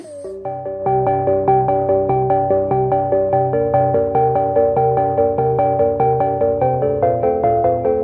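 Suspenseful music built from many short repeating notes in a steady, insistent pulse, mid-pitched and fairly loud throughout, with no voices.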